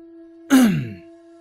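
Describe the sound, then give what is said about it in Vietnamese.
A man clears his throat once with a loud, short, rough rasp that tails off. A steady low hum runs throughout. “Vũ Tam gia đằng hắng một tiếng thốt.”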